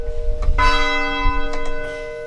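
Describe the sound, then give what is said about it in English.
Church bells ring in Thetford in the evening, with a few bright metallic strikes whose long, sustained tones hum and overlap, leaving a steady ringing that slowly fades. “At the height of the pandemic last year, bells rang out from 5 churches and school buildings in Thetford every evening at 7, including where Erica worships, the United Church of Thetford.”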